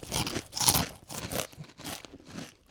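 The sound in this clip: Mexican 3D Doritos tortilla chips are bitten and chewed in a quick run of dry, crackly crunches. The crunching is fairly faint and there is no talk.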